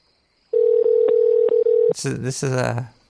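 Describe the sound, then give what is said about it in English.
A steady telephone tone, broken by a few faint clicks, runs for over a second as a call is placed; a voice then speaks. “let's give a call back over here and see if this works”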